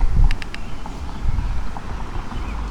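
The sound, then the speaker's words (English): Wind blowing across a microphone outdoors beside a lawn: a low, gusty rumble that rises and falls throughout, with a few faint, sharp clicks early on and no talk. “And now the wind is coming up.”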